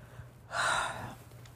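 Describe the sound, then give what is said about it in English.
A single yawn from someone lying in bed: a soft, breathy, drawn-out sound lasting about half a second, fairly faint against a quiet background. “oh man, there's one yawn.”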